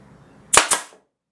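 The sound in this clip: A nail gun fires with no nail loaded, giving two sharp, loud snaps in quick succession; the second is softer and trails off into silence.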